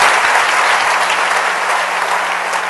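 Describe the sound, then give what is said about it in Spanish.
Sustained applause from an audience at a church worship service: dense, steady clapping that holds at a fairly even, loud level for about three seconds, with no talking over it. “Démosle otro aplauso al Rey bendito.”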